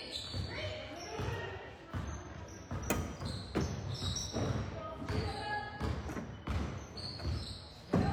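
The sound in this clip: A basketball is dribbled on a court during a game, making many bouncing thuds in an uneven rhythm, with a man speaking over them.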